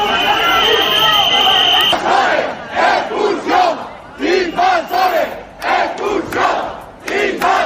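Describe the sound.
A crowd of angry residents shouts outside hotel doors in Ceuta: a loud, continuous roar of many voices gives way to rhythmic bursts of chanting that repeat steadily.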